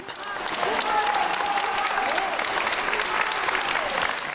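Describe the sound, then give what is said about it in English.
Clapping and cheering from a crowd outside a courtroom in France, dense and continuous throughout, with a voice speaking over the applause. “That's the sound of people clapping and cheering as Pellicot came out of the courtroom last week.”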